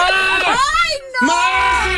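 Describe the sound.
A goat bleating loudly inside a cramped booth. Two long, nasal, wavering calls rise and fall in pitch, separated by a brief pause.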